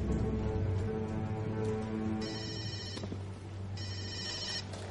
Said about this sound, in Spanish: Javi recibe una llamada de Gottman.